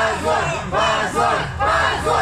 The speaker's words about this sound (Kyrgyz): Алардын жараянга келген тарапкерлери муну уят деген кыйкырык менен кабыл алышты.